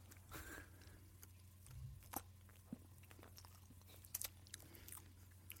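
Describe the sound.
Quiet chewing of a bite of cream-topped cake: soft, moist mouth sounds punctuated by a few sharper clicks and smacks, with no one talking.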